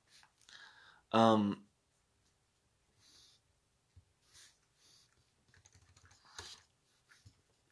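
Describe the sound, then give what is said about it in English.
Scattered, faint keyboard clicks from someone typing on a computer keyboard in irregular short bursts. A brief voiced breath or snort stands out early on, and the keystrokes stay quiet throughout. “I'm trying to type this in. Give me a moment.”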